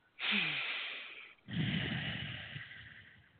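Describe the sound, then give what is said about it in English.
Two long, breathy sounds of a deep breath taken slowly together, one drawn-out breath followed by a second after a short pause, both fading gradually in a quiet setting. “if you don't mind joining me, let's take a breath together, listeners.”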